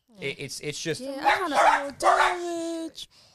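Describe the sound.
Dogs bark and yowl: a run of quick, clipped yaps gives way to two long, drawn-out whining cries. The sound is moderately loud and ends abruptly.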